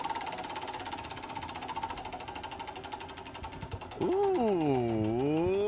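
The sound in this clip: A prize wheel spins during a radio show, its clicker ticking rapidly and evenly for about four seconds. Voices then break in with drawn-out exclamations as it stops.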